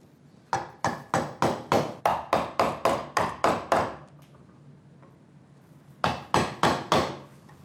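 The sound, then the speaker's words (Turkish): A very sharp chisel driven by a mallet into hard sycamore wood. A quick, regular run of crisp, knocking blows is followed by a pause, then a few more strikes, with no talk. “Sonra çok keskin bir keski ve tokmak kullanacağım. Ve o alanı dikkatlice çıkaracağım.”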